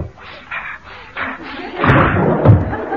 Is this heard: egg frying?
no